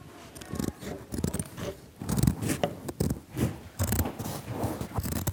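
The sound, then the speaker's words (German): Scissors cut the sleeves off a shirt, producing many crisp, crunchy snips through the fabric in uneven bursts with brief pauses between them, fairly faint throughout. “Ich fange mal an und schneide den rechten Ärmel. Und ich schneide den linken.”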